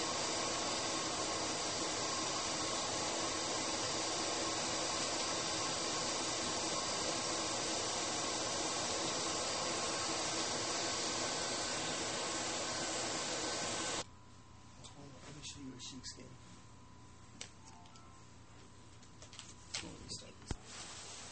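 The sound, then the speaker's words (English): A household vacuum cleaner runs with a steady, even whirring hum. It cuts off abruptly after about fourteen seconds, leaving a much quieter background with a few faint clicks. “There's probably some vacuuming noises.”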